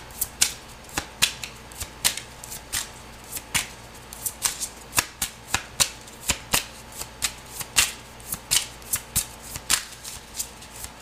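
Tarot cards being shuffled for a reading, a long run of crisp, papery riffling snaps in a quick, uneven rhythm, many distinct flicks with no talk.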